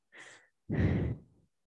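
A slow, deep breath taken while holding a twisting stretch with the right knee pressed down: a short, soft inhale, a brief pause, then a longer, louder sighing exhale that fades out, with no talking.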